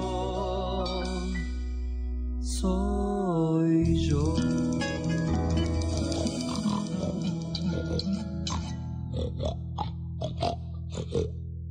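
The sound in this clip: Pig oinking and grunting: a run of several short, snorting bursts in the second half, sitting over a sustained, humming tonal background that runs through the whole clip.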